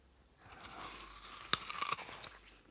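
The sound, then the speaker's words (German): Someone bites into fruit and eats it: a sharp crisp bite, then a few crunchy chewing sounds, all fairly quiet over a low hiss. “Du wirst sicher hungrig sein. Also iss erst einmal von dem Obst. Greif zu.”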